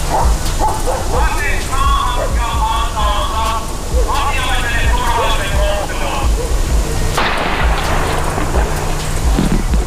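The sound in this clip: Police dog barking and yelping during an armed arrest near petrol station fuel pumps. A few sharp, harmonic barks rise over dense, continuous noise, with voices audible throughout.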